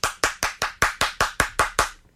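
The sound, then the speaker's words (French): Ten crisp hand claps at an even, steady rhythm, each sharp and about equally loud, stopping abruptly with silence at the end. “Je peux même me lever pour l'applaudir.”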